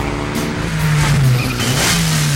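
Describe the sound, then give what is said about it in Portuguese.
A Mitsubishi Lancer engine revs in a car commercial, a loud, steady drone whose low pitch wavers and swells as the throttle is worked, with no voices over it. “O espírito de nossa tecnologia vive em seu carro. O carro que triunfou em todo o mundo. Mitsubishi Lancer.”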